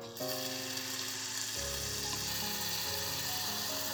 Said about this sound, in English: I'm gonna start by lightly sauteing the onions and garlic.